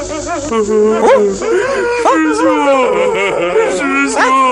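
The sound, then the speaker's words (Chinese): Monks weeping and wailing, several voices overlapping in wavering sobs that rise and fall in pitch, staying loud and continuous throughout. “悟空，哎，是谁在啼哭啊？”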